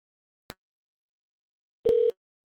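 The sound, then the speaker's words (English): A sharp click, then after a pause a brief steady telephone tone sounds while a number is being called, with silence around both. “Let's call a different number.”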